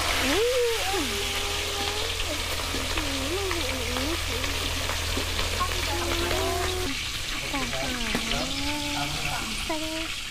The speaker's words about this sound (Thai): เรามาทอดปลารอบสองกันนะลูก